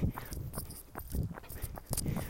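Footsteps of a person running alone outdoors on a jog: many steady, rhythmic footfalls that land as dull thuds with light scuffing between them, at moderate loudness and with no voice.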